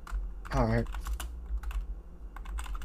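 Typing on a keyboard produces a quiet run of irregular clicks and taps, with a short voiced sound near the start over a low background hum.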